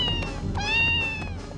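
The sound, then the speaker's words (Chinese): A cat resisting a bath lets out a drawn-out, whining meow that rises and holds high before trailing off, loud against a noisy background. “这只猫好凶哦，它好像不大愿意洗澡哎。哎，姐，猫跑掉了， 快追呀！”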